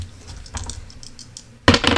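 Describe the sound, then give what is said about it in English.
Dice being rolled: a run of light, scattered clicks, then a sudden louder clattering rattle that carries on to the end. “So now we're going to go ahead and roll the dice”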